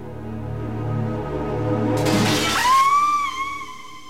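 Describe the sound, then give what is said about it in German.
A closed window's glass bursts with a sudden loud crash as someone jumps through it, followed by bright ringing shards tinkling and settling for a moment afterward. “Das ist ja entsetzlich. Direkt durchs geschlossene Fenster.”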